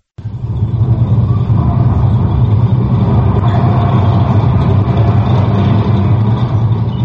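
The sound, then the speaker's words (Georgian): Tank rumbling forward in a film, a heavy engine drone with a loud, steady low rumble that rises quickly at the start and holds unbroken to the end. “ფილმი იწყება მოძრავი, ლულა შემართული ტანკის ახლოხედით. კადრში ჩანს აბრძოლო მანქანა, რომელიც ბრუხუნით მიიწევს წინ.”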